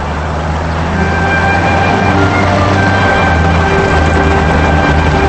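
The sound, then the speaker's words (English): A convertible car drives down a wooded country drive, its engine and road noise forming a loud, steady hum with a faint whining tone and no voices. “Wally's convertible turns down a wooded drive in the country.”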